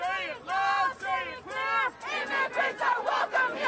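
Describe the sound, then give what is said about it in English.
Protesters in Sacramento chant at Attorney General Jeff Sessions. Many voices shout in unison in repeated rhythmic bursts, loud and forceful, with brief pauses between phrases. “Protesters in Sacramento greeted Attorney General Jeff Sessions with chants. No justice, no peace.”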